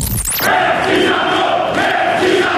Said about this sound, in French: Un piquet de grève, c'est le comité d'accueil réservé à Nicolas Sarkozy. TF1, 6 octobre 2008. Ses salariés et CGT manifestent leur mécontentement dans l'enceinte même de leur usine.